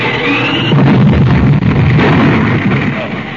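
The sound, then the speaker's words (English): Explosion of an iceberg packed with explosives being smashed: a loud, sustained blast with heavy rumbling that fills the whole stretch with dense noise and no clear breaks. “Ah, there's another iceberg filled with explosives. Down and smash it. Down!”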